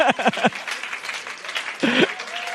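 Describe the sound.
An audience at a church conference cheers and applauds, with steady, dense clapping and loud whoops at the start and again near the end.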